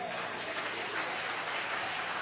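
Congregation clapping during an afternoon church worship service: a dense, steady wash of many hands beating together that fills the whole stretch at an even level, with no voices over it.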